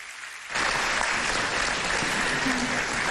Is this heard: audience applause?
yes